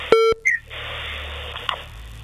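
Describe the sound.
Telephone dialing tones as a call line connects: a steady electronic tone, then a brief higher chirping beep, leaving a quiet hiss of open line.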